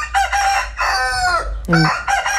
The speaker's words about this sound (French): où les animaux ont très bien le droit de chanter. On ne restera jamais sans coq.